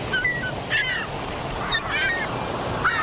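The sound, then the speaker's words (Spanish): Seagull calls ring out over ocean waves washing onto a white sandy beach: several short, bright, harmonic squawks come in separate bursts over a steady hiss of surf. “Es el cantar de las ballenas. A veces el graznido de una gaviota al volar.”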